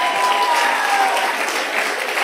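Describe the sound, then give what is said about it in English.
Hand clapping from a church audience during worship: a dense, steady wash of many hands clapping together, continuous and loud with no pause. “Now clap your hands and praise him.”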